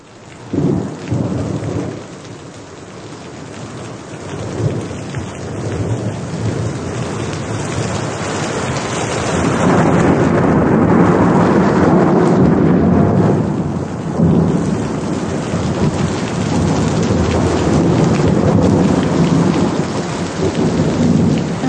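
Heavy rain drums on a tin roof over a corridor leading down to a kitchen, with rolling thunder. The downpour is steady and dense throughout and grows louder about halfway through, with no voices.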